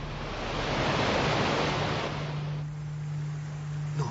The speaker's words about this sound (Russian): «О, Боже! Она упала с обрыва в реку! Не бойся! Я не оставлю тебя в беде!»